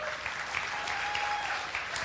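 Applause welcoming a guest: a faint, even patter of many hands clapping continues steadily for about two seconds, with no voices over it.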